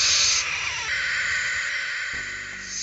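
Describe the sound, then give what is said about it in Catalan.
A barn owl, a nocturnal bird of prey, gives a long, harsh hissing screech. The rasping sound lasts about three seconds, loudest at the start, then steady and slightly softer. “L'òliba és un ocell rapinyaire nocturn.”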